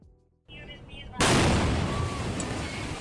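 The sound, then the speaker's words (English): About 2.5 tons of seized fireworks blowing up during a bomb squad disposal outside a house in South Los Angeles. A rumbling lead-in gives way to a sudden loud blast, then a sustained, roaring wash of crackling noise. “Well, that's what it sounded like last night outside a house in South LA when bomb squad technicians tried to neutralize 2.5 tons of fireworks seized by the LAPD. Instead, that stuff blew up.”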